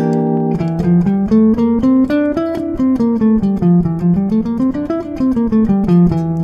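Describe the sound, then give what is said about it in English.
A Locrian mode scale is played note by note on an instrument, with many clear, evenly spaced tones that climb and fall in a steady rhythm. “one of the most common choices and easiest choices is the Locrian scale or the Locrian mode. And it sounds like this.”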